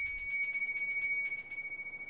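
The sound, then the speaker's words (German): A small silver handbell rung rapidly for Christmas gift-giving in a family home, producing many quick, bright, high metallic tings that are steady at first and then fade away into quiet. “Hanno wartet ungeduldig, dass Ida endlich mit der kleinen Silberglocke zur Bescherung läutet.”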